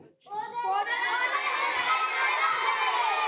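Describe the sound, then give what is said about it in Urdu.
Children standing to chant a slogan together at a tree-planting event: after a brief pause, many young voices launch into one loud, sustained unison shout that holds to the end. “چلیں سب بچے کھڑے ہو کر, بچیاں بھی کھڑے ہو کے, ٹھیک ہے, چلیں لگائیے بھائی نعرہ.”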